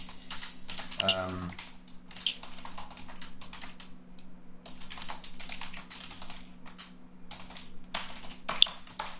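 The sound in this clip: Typing on a computer keyboard while writing a message in the chat during an online group Q&A: many rapid keystroke clicks in uneven bursts with short pauses, over a steady low hum.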